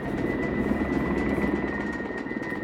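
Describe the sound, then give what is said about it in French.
A helicopter arrives at a flood rescue scene, sounding as a loud, steady rotor thrum with a constant whine above it, heard throughout without any talk. “À 16h30, un premier hélicoptère arrive sur les lieux.”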